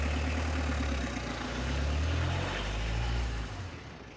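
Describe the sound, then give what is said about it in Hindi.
A car engine runs on its own with a steady, low, even rumble. It holds a constant idle throughout, with no voices. “देखते ही देखते वो साया बड़ी फुर्ती से वहां से गायब हो गया और कार खुद ब खुद स्टार्ट हो गई”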